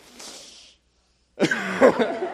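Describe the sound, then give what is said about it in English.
A person inhales deeply on instruction during a set of facial exercises: one long, breathy intake of air. After a brief silence, a voice starts speaking. “All right, now inhale.”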